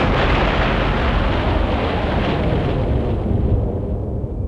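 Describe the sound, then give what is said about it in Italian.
Bombs exploding as the Allies bomb the bridge over the Po: a dense, loud, continuous roar of blasts and deep rumbling that barely lets up throughout. “Il fosso è l'unica cosa che li può salvare dalle bombe. Sono arrivati. Gli alleati stanno bombardando il ponte sul Po.”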